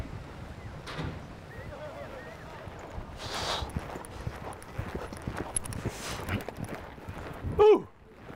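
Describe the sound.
Horses' hooves clip-clop unevenly as gauchos on horseback drive a herd behind its lead animal across open ground, the scattered hoofbeats mixed with wind noise.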